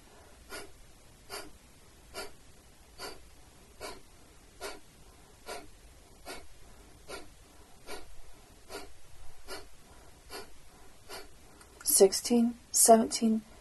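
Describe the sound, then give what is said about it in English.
Rapid breath-of-fire breathing exercise: many short, forceful nasal exhalations in a steady, quick rhythm, followed near the end by a voice speaking. “And out. One more time. Letting go to breathe in.”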